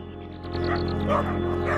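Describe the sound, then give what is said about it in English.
A litter of dogs barks, yips and whines in quick, overlapping bursts above a steady droning background. “From a distance, Davey watches a litter of barking and whining dogs on a neighbouring street. There's a wee puppy there. I think they're all fighting over a puppy.”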